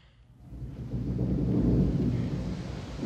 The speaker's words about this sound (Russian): О, боги! Снова пошел дождь!